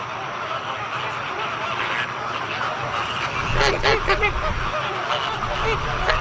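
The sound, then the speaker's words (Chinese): Caribbean flamingos call at their nests, a dense chorus of nasal, goose-like honks that grows louder and busier partway through, with a voice speaking over the birds. “几乎每个鸟巢里都有一枚卵，加勒比海红鹳夫妇会轮流孵育雏鸟。”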